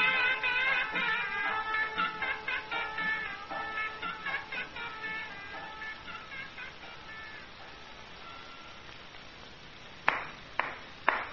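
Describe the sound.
Hand claps in an Egyptian radio drama: three sharp, distinct claps land near the end. They follow a stretch of melodic music that fades into quiet.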